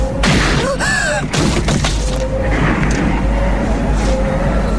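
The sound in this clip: Gunshots in a tense film scene: a few sharp, loud bangs burst out, a voice cries out between them, and a low, steady rumble runs underneath throughout.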